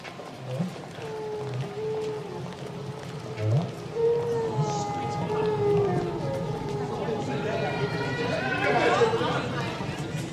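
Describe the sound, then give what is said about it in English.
Recorded song of a male whale: drawn-out tonal moans glide up and down over a soft hiss, becoming brighter and higher toward the end. “What you're hearing is recorded whale song. It is sung by the male.”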